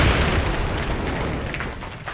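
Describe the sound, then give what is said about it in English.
An explosion sound effect for a role-playing game scene in which a Medusa is engulfed and blown apart: a loud, broad rumbling roar that swells at once and then slowly fades. “you see that it completely engulfs the Medusa, and she explodes and dissipates into nothingness”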